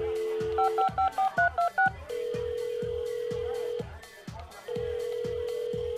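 A telephone being dialed to call someone: a brief dial tone, then a quick run of keypad beeps, followed by two long, steady ringing tones with a pause between. A rhythmic low musical thump pulses underneath throughout.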